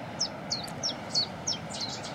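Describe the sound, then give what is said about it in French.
A Cetti's warbler sings a rapid series of sharp, high chirps at a quick, even pace over a faint background hush. “Puis la bouscarle qui chante derrière nous, en plus. Ça, c'est sympa.”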